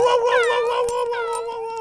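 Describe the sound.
A voice imitates a young lion trying to roar: one sustained, high, wavering howl-like cry with rich harmonics, rising and falling slightly in pitch and held loud for the whole moment.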